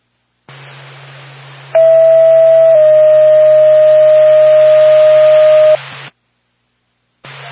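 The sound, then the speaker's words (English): Ambulance dispatch alert tones play over radio: a steady tone shifts slightly in pitch after about a second and holds for several more, over radio hiss and low hum, before the carrier drops out and briefly returns. “Norfolk to Lancaster Ambulance, stand by for tone.”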